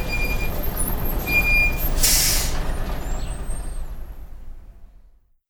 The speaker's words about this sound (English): And that's my bus.